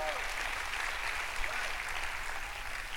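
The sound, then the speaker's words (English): Church audience applauding, a dense, even patter of clapping that runs steadily and fairly quietly throughout, with a few voices mixed into the noise. “Come on, if you're here, make some noise today. Come on, give God a praise.”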